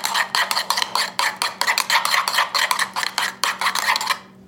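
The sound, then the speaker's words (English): A spoon scrapes quickly as salt and garlic are stirred together into a yogurt mixture. Many short, rhythmic strokes repeat at an even pace, then stop abruptly. “Pinch of salt. Garlic. Stir it together.”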